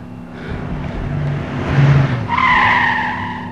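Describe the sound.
A bus braking to a stop: a low, rumbling engine and road noise that swells, then gives way to a sustained high-pitched brake squeal near the end.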